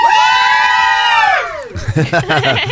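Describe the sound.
Mums and kids in a live studio audience cheer with a long, high, sustained whoop whose pitch drops away near the end. Voices and chatter follow.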